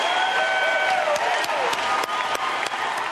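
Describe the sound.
An audience claps and cheers to welcome the candidates Hillary Clinton and Donald Trump at a US presidential debate, a steady, dense wash of applause that stays loud for the whole stretch.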